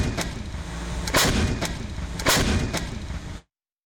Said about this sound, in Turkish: Panter obüsü 27 adet mühimmat kapasitesiyle kesintisiz ateş gücü sağladı.